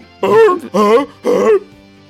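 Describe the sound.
Loud throat clearing: three voiced, gruff grunts in a quick, even rhythm with short gaps between them, heard alone with no talk.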